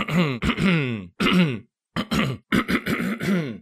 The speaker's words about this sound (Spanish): Lamentablemente tengo que aclarar la garganta constantemente.